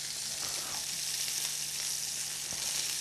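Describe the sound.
Bacon-wrapped rumaki browning in a pan sizzle and fry with a steady, even hiss and occasional faint pops, heard alone without talk.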